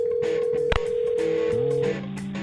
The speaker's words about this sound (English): Let's check Adam's voicemail.